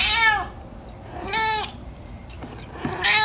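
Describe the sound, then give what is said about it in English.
A domestic cat meows three times, each call short, bright and high-pitched, separated by quiet pauses with no talk over it. “And those absolutely adorable sounds you're hearing right now are from my cat, Potato”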